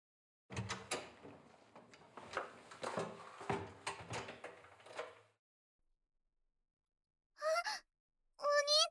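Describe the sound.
A door being opened, heard as a run of rattles, scrapes and knocks lasting about five seconds, then a silence before a voice speaks briefly twice.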